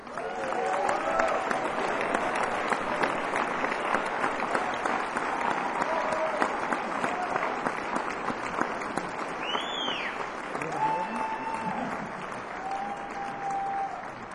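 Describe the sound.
Audience applause welcoming a guest onto a live show, a sustained, dense wash of many hands clapping that stays fairly steady for the whole stretch.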